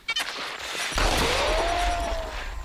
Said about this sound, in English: They're going to give him a gun. They give him a gun? He's on it. This is about to get RoboCop. And he fires it.